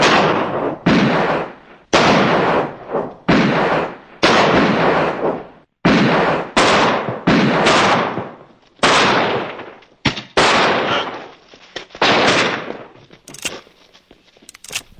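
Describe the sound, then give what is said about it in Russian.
Gunshots from a Nagant revolver and a Walther pistol fired at skulls: many loud, booming shots at an uneven pace, each ringing out in a long fading tail before the next one cracks. “Стрельба по черепам, как в тире. Огонь!”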